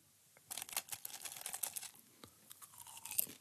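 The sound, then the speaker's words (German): Popcorn being eaten, crisp crunching chews in quick irregular bursts, fairly faint and close, with short pauses between bites and no talking. “esse jetzt noch ein bisschen Popcorn.”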